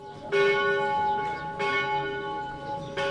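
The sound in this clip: Church bells ring at an Armenian Christian church in the ancient walled city of Diyarbakir. Three clear strikes come about every 1.3 seconds, each a bright, harmonic tone that sustains and overlaps the next.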